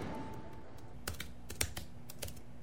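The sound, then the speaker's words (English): Song lyrics are typed on a computer keyboard, a handful of quiet, sharp, irregular key clicks scattered over a faint background hum. “You've typed in the lyrics, and now that you've typed in the lyrics, let's hear how that sounds.”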